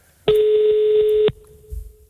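A telephone tone as a number is dialed to call a listener: one loud, steady, buzzy beep about a second long, followed by a faint lingering hum and a soft low thump.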